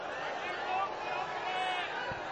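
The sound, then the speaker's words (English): Crowd booing a speaker at a public address in a county, where a dense, unbroken mass of voices holds steady from start to finish. “booing him”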